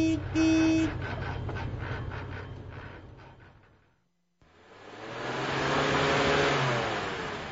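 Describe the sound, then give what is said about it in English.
A car engine with a mechanical fault, a damaged rod, drones steadily with a coarse pulsing rattle. It cuts out briefly midway, then returns and swells louder before easing off. “Well, you can hear it now, can't you? Are we stopping now? I ain't got no choice. I'll pull over, Tom.”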